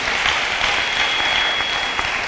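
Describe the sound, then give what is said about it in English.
A church audience claps on Easter Sunday, a dense, steady burst of applause from many hands that stays loud and even throughout, with no voices standing out. “So it's a good place to clap.”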